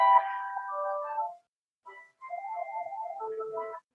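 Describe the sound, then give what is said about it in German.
Phone ringtone signals an incoming call: a bright, melodic electronic tune in a long phrase, a brief gap and a short note, then another long phrase. No voices are heard. “Jetzt kriege ich einen Anruf.”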